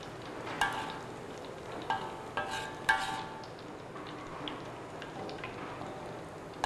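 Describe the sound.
Shallots sizzle as they deep-fry in fresh vegetable oil until golden and crisp. A steady, soft hiss carries a few sharper pops and crackles, and no one speaks.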